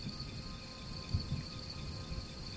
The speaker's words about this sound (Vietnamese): Tiếng ve sầu, tiếng ếch kêu, tiếng sột soạt của lá cây tạo thành một bản nhạc êm dịu cho màn đêm.